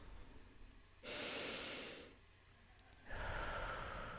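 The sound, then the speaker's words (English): A deep cleansing breath: two long, airy rushes of breath, each about a second, separated by a short quiet pause, soft and without speech. “Nice cleansing breath, just to get us all synchronized”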